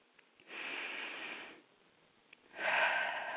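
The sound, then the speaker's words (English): A slow deep breath: two long, soft, airy breath sounds separated by a short pause, the second louder and brighter, heard alone without talk. “Just take a deep breath with me”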